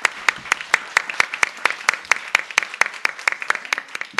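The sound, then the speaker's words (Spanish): Audience applause for the staff at an event's registration and coffee area: a long run of sharp, evenly spaced claps in a steady rhythm, many beats falling in unison at a quick regular tempo. “Un aplauso para las personas que estuvieron acá.”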